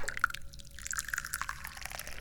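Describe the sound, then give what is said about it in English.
Jade Jaguanyan tea being poured makes a faint, soft trickle. Small scattered drips and splashes run through it, with no voices heard. “I'm pouring tea,”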